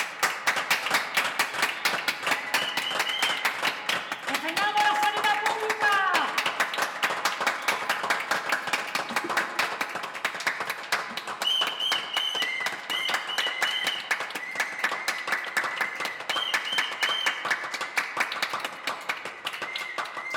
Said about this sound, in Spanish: Esos aplausos, de verdad que le devuelven a uno la esperanza y es muy lindo ver, escuchar a los vecinos, compartir con ellos.